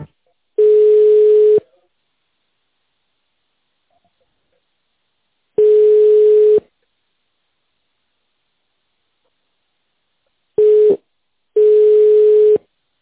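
A telephone ringback tone sounds while a call is transferred. The steady mid-pitched beep repeats four times. The first two beeps are spaced well apart, then a clipped short beep is followed closely by a full one, with silence in between.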